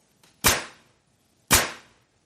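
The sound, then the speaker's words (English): A nail gun fires twice, each shot a sharp, crisp snap with a quick decaying tail, about a second apart, with silence around them. “What is a nail gun? A nail gun, yes, much bigger than a stapler.”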